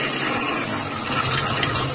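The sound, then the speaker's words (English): A car engine idles after stopping with a flat back tire, a steady, even low rumble that stays constant throughout with no talk. “The car feels funny. Must be this old road. No, it ain't the road. Feels like the back tire's flat. Maybe I better stop.”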